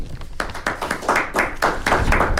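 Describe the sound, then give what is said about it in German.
A small group applauding at a Berlin house for art and literature, clapping in pulsing, uneven bursts of hand slaps that carry through the whole moment at a moderate level. “Trotzdem kriegst du einen Applaus.”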